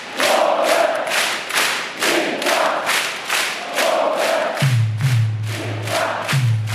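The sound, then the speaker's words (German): A loud rhythmic chant from nearly 13,000 beach volleyball fans packed together, cheering on a German men's duo, with steady repeated shouts and thuds; a low droning tone joins during the second half. “da knapp 13.000 ein absolutes Beachvolleyball-Fest gefeiert, eng an eng, frenetisch vor allen Dingen diesen beiden Jungs aus Deutschland zugejubelt, die wiederum diesen Anfeuerungsruf hier geprägt haben.”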